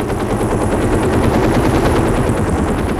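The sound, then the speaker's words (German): Loud, steady helicopter rotor chop as the helicopter tips forward near a bridge: rapid, even thumping blades over a dense engine roar that holds at one level throughout. “In dem Augenblick kippte der Hubschrauber nach vorne über. Eins der Rotorblätter knallte mir in den Magen gegen.”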